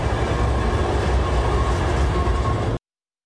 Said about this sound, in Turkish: Pasaport kontrolü sonrası İstanbul'a doğru yola çıkan tren 2 Ekim'de Paris'e dönecek.